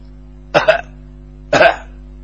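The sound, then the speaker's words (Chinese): A voice imitates someone coughing outside: two short, throaty bursts about a second apart, each with a quick double pulse, over a steady low hum. “心正想着，外头有人咳嗽，”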